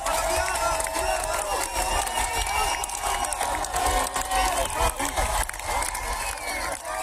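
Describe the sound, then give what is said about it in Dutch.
Crowd at an airport greets a returning Iranian climber with applause and cheering, a dense, continuous wash of clapping and many mixed voices at an even level throughout. “Ze werd met applaus onthaald op het vliegveld.”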